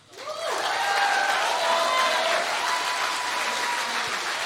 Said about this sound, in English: Can we please give it up for Collin again?